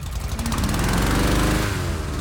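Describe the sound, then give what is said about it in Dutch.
A large fan blows cold air into hot air balloons before a mass launch of 40 balloons in Joure, producing a loud, steady, throbbing motor drone with a rough, pulsing engine tone throughout. “Die ballonnen die worden eerst met koude lucht gevuld. Dat gaat met deze ventilator die je nu hoort.”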